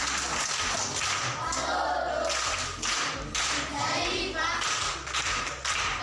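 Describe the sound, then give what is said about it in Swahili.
Applause from a group at a primary school gathering: a dense patter of many hands clapping, held at an even loudness across the whole stretch, with a few sharper claps standing out. “Makofi kwa mjomba.”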